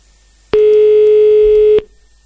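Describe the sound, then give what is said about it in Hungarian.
A single loud, steady telephone tone sounds for about a second as a call is placed to a radio listener, starting and stopping abruptly. “Hívjuk a naphallgatóját már is.”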